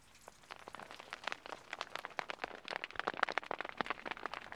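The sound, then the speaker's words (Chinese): Hail pelting a tent on an uninhabited high plateau above 4,000 metres: dense, irregular sharp taps that grow busier and louder as the storm goes on, with no voices. “你现在听到的声音是冰雹砸在帐篷上。今天是我生平第一次睡在海拔4000多米的高原帐篷里”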